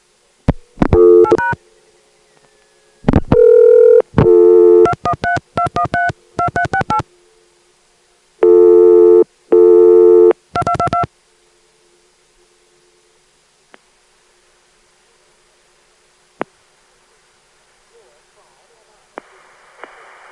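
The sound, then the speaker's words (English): Touch-tone dialing of a long number into a local SPC telephone switch in Atlanta: rapid bursts of loud dual-pitch beeps, then near silence broken by a few faint clicks and a soft tone at the end. “I'm going to dial 213213 plus four digits. That will be sent to the local SPC Atlanta switch, which will send it to a distant switch, which will give us a recording.”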